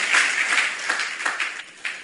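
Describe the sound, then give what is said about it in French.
Applause from a church audience during a French-language sermon, dense clapping at first that thins into scattered, sharper individual claps and fades toward the end. “Bon, acclame avant de voir la suite.”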